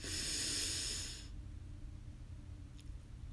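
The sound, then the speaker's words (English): Breathing in and out during a guided breathing exercise: a single long, airy breath with a soft hiss lasts just over a second, then gives way to near silence. “So let's begin by breathing in and out.”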